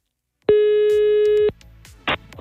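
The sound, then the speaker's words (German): One steady telephone line tone sounds as an outgoing call is placed, a loud, even mid-pitched tone lasting about a second. A faint rustle and a brief noisy burst follow. “ich rufe jetzt hier mal die Heike an.”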